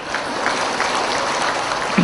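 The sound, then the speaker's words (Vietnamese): Audience applause during a spoken talk, a dense, steady patter of many hands that holds throughout and swells slightly at the end. “Thôi vỗ tay luôn đi.”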